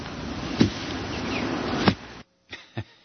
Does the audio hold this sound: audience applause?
no